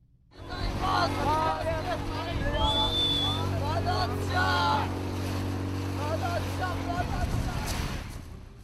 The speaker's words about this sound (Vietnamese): Trên đảo Lesbos ở Hy Lạp, những chiếc thuyền hơi chở đầy dân di trú tiếp tục đến, bất kể thời tiết ngày càng xấu.